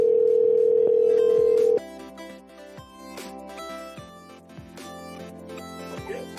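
A steady single-pitched telephone dial tone plays loud and unbroken for under two seconds while a call is placed, then cuts off abruptly, leaving softer, fainter tones.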